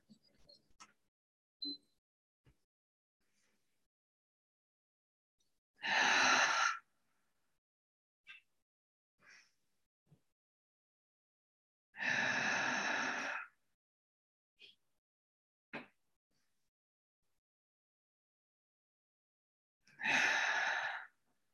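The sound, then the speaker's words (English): Deep cleansing breaths, inhaling and exhaling, come as three long, loud, airy rushes of breath, spaced several seconds apart, with faint small clicks and ticks in the quiet between them. “We're going to take 3 deep cleansing breaths.”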